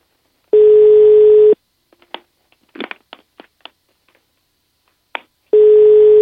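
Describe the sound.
Ringback tone of an outgoing phone call that goes unanswered: two loud, steady, one-second tones separated by several seconds of near silence with a few faint scattered clicks. The second tone is cut off at the end.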